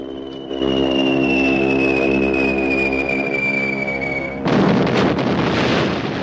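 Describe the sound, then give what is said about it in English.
Bombs dropped from a Japanese bomber plane exploding on a town: a slowly falling whistle over a droning engine hum, then a loud, rumbling blast that roars on to the end. “He pulls the trigger, releasing a wave of bombs.”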